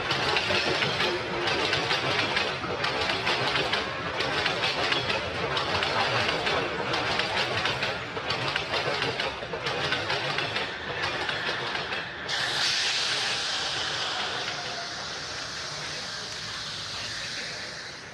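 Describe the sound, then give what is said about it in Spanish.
A metro train arriving: a steady, loud rumble with rhythmic clacking bursts, then a sudden brighter hiss that holds to the end. “Y ahí viene el siguiente metro.”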